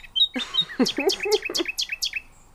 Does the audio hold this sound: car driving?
no

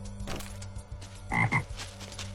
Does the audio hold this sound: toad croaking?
yes

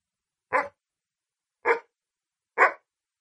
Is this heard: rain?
no

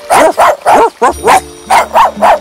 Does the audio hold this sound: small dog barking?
yes

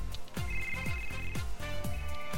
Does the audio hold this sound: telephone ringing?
yes

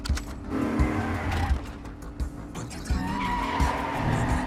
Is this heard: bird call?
no

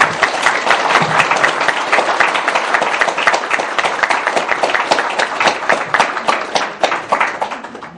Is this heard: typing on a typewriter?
no

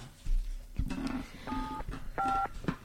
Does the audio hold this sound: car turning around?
no

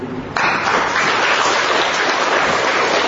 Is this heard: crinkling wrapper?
no

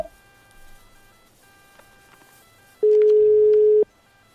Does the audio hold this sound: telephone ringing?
yes

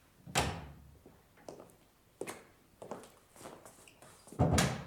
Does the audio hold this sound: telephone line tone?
no

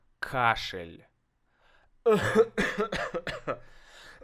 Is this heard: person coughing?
yes

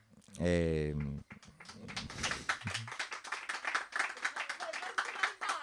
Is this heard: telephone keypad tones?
no

